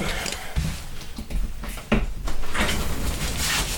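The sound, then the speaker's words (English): A window is opened: two firm knocks are followed by a loud, sustained sliding rush that carries on to the end, with no talk. “I'm gonna open my window. I'm a little hot.”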